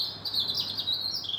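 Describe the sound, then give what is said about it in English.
A European robin sings on a clear, quiet, fully dark night: thin, high, continuous warbling twitters of fairly soft song, with no other sounds. “And this is the sound of a robin, up way past his bedtime, singing his heart out into the darkness.”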